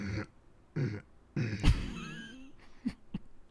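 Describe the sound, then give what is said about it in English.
A voice demonstrates a gentle, subtle cough: a few short, soft throat-clearing bursts, moderately quiet, with no talk. “if someone's coming, you just kind of do like a really gentle cough”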